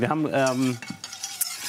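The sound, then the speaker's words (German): Flour is stirred into browned, nutty butter in a pan to make a roux, giving soft scraping and swishing that settles into a few light clicks and quieter stirring. “Ich habe hier schon mal ein bisschen Butter aufschäumen lassen und auch so ganz leicht rösten lassen. Da spricht man ja von Nussbutter. Und da rein habe ich jetzt das Mehl eingerührt.”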